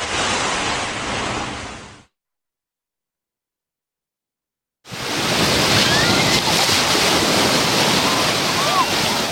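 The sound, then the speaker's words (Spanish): Waves wash onto a beach on Granada's tropical coast, a steady hiss of surf and wind that cuts out into silence for about three seconds before the roar returns, fuller than before. “Es el momento de asomarnos al litoral granadino, como cada día lo vamos a hacer conectando con una de las playas de la costa tropical”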